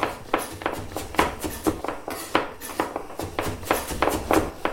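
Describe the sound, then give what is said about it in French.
Spoon clinking against a bowl as yeast is stirred into a tablespoon of lukewarm water: a quick, fairly even run of many light taps and scrapes, faint and without voices. “J'ajoute une belle cuillère à soupe d'eau tiède dans cette levure. Et puis, qu'est-ce que je vais faire maintenant ? Je vais commencer à mélanger le tout.”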